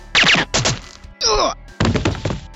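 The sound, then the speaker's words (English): Gunfire in the first-person shooter GoldenEye 007: four sharp, loud bursts within under three seconds. The third burst carries descending whistling tones. “With the crosshair on screen, we line it up with the enemy and we fire with much more accuracy.”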